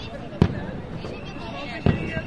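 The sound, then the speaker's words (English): Fireworks go off at a street festival in Malaga, Spain: two sharp bangs stand out, well apart, over a low, murmuring background. “My first feria began with fireworks that I watched from the roof of a portside hotel.”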